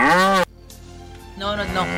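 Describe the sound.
A cow moos in a loud, drawn-out, low call that cuts off abruptly. A quiet pause follows, then a person talks.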